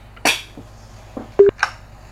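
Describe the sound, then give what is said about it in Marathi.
Telephone dialing tones as a call connects on a call-in programme: a few short, isolated electronic beeps separated by near-silence, one of them a clear steady keypad tone. “श्रोते हो, कार्यक्रमात आता आपण एक phone घेऊया.”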